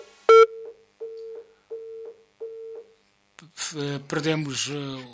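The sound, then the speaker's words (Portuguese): A phone line's tone after a dropped call: a loud click, then a few evenly spaced short beeps at one steady pitch, followed by a voice talking. “Perdemos a chamada.”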